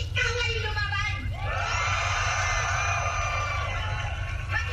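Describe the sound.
Protesters shout slogans in the rain at a Philippine Independence Day demonstration against a draft law, placards raised. Loud, sustained massed yelling with many overlapping voices runs through the whole clip.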